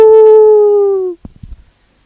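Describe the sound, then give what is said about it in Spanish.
A person imitates a wolf howl with a single loud, sustained voiced tone lasting just over a second that slides slightly lower as it fades, followed by a few faint short noises. “entonces aullo yo”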